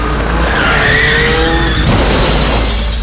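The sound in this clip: Car tires screeching in a skid in a road-safety spot about crashes: a loud, wavering squeal over engine noise for over a second, then an abrupt shift to dense, rough noise.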